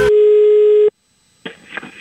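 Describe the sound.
A telephone dial tone while a call is placed, a loud steady single tone lasting under a second before it cuts off, followed after a short silence by brief rough noises.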